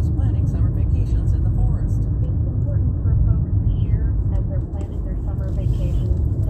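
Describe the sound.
Low, continuous engine and road rumble from a car driving along a street, heavy and steady throughout with no clear breaks.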